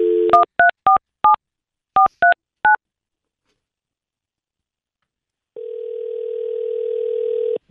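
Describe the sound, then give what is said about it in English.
Telephone dialing to place a call: a brief dial tone, then seven crisp touch-tone key beeps in uneven groups, and after a silent pause a steady low tone sets in and holds to the end. “We're going to call up Carissa right now.”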